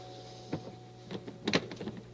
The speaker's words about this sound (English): I'm having trouble with my door here. You're a handyman. Could you take a look at that?